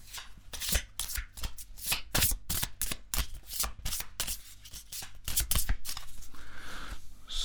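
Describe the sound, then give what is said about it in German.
A deck of playing cards being shuffled by hand for a card game, with many rapid crisp riffles and flicks in quick uneven bursts, fairly quiet throughout, with no voices. “Die Karten sind gemischt.”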